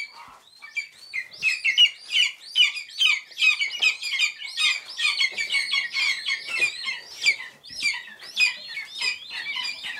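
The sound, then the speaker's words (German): Loud, high chirping calls from hungry lesser spotted eagle chicks being hand-reared at a rearing station near Potsdam; many rapid, overlapping peeps run without pause through the whole clip. “Sie sind klein, grau, haben Knopfaugen, sind unfassbar flauschig und sehr laut, wenn sie hungrig sind, die Schreiadler-Küken. Hören Sie mal.”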